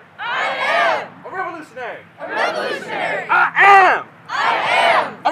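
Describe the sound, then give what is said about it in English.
A rally crowd chants 'I am a revolutionary' in unison, loud rhythmic bursts of many voices separated by short gaps, each phrase rising and falling together in pitch. “The crowds were chanting, I am a revolutionary. A revolutionary.”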